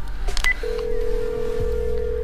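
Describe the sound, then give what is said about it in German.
Telephone keypad tones sound as a number is dialed: a few quick beeps, followed by a long, steady mid-pitched tone that holds until the end. “Lass mal Susi anrufen.”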